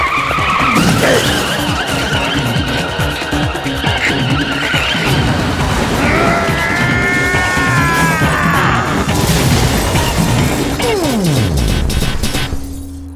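A car skids and crashes before men are thrown from the wrecked vehicle. Loud tire squeals run for several seconds amid roaring engine noise, and a heavy impact follows, with no voices.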